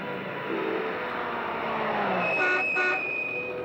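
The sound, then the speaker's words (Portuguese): A car rumbles steadily as a running engine, and its horn sounds in two short honks near the end. “Tire este carro daqui!”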